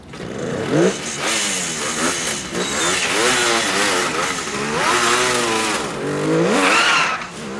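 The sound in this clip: A car engine revs hard and roars as the car speeds away in a cloud of smoke. Its loud, sustained tone surges up and down in pitch repeatedly, with no voices.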